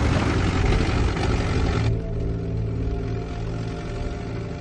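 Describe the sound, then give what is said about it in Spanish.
A car engine runs in a village among smoking rubble, giving a loud, continuous rumble with no clear revs. A bright hissing layer drops away partway through, leaving the steady engine drone. “Baja del vehículo en marcha.”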